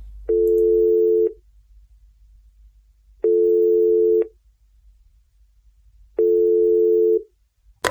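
A telephone call ringing on the line produces three evenly spaced ringback tones, each a steady buzzing tone of about a second separated by quiet gaps.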